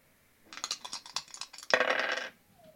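Digital dice rolling from a dice-rolling app: a quick run of light clattering clicks builds into a dense rattling burst that stops abruptly, followed by a faint short tone.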